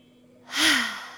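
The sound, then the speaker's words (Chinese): A single deep breath during a guided relaxation exercise: a soft, airy rush of air that swells quickly, peaks, then slowly tapers away. It is quiet and heard alone, with no talk. “闭上眼睛，放松身体，一起来深呼吸。”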